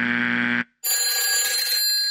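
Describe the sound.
Electronic telephone ring from a cold caller: a loud, steady ringing tone for about half a second cuts off sharply, then after a brief gap a bright, buzzy burst of sound follows.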